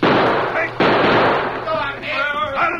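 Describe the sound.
Sharp gunshots crack during a shootout, a few hard bangs spaced apart, each with a quick ringing decay, with voices heard between them.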